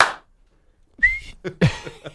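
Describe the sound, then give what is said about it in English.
A voice imitates a referee's whistle with one short, high, shrill tone, followed by a few brief vocal sounds. “the ref's like, whistle right next to his junk,”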